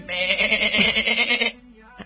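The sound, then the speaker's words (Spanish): A sheep bleats once in a long, loud, wavering cry of about a second and a half, then falls silent. “Y el 1 de diciembre la clonación de mamíferos da un salto con el nacimiento de la oveja Dolly.”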